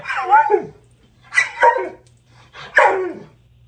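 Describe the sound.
Dog vocalizing excitedly in anticipation of a walk: three separate drawn-out yowling barks that bend in pitch like talking, with short gaps of quiet and a faint low hum underneath.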